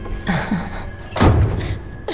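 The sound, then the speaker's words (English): Doors being shut by a man. A heavy, low thud lands near the middle and the onset of another thump follows at the very end, with softer sounds before the first. “he shuts the doors”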